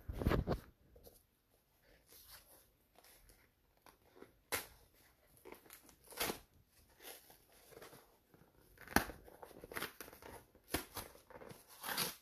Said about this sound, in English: so one of those long boxes, by like 14 inches or so. But it's like one of those, it's perforated, so it should be easy to open.